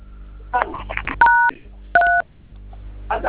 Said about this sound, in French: Composez le code, s'il vous plaît. Maintenant, là.